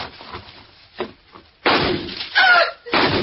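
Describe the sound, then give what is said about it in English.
Gunshots fired into a car's tires. Softer knocks and thumps lead into a few loud, blunt bangs with ragged decays, all sounding muffled and band-limited. “I just shot a couple of holes in your tires, that's all.”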